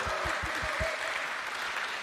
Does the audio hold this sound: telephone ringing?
no